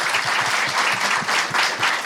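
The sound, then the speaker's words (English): An audience at a town hall event gives a round of applause: dense, steady clapping from many hands that stays loud and even throughout, without a break. “big round of applause for Yasmin.”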